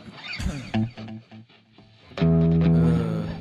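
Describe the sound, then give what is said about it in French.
Electric guitar through a Marshall amp with a Screamer delay pedal: a few picked notes with echoing tails, then a loud, full sustained chord ringing out and slowly fading. “Ils ont mis un Marshall juste à l'émission. Screamer, c'est quoi ça? C'est une pédale, non? C'est une distorsion? Un délai. Le même que toi, la psyché délai.”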